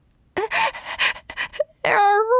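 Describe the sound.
A person voices a trembling tomcat gasping and panting: a run of quick, uneven, breathy gasps and whimpers, then a drawn-out moaning wail at the end.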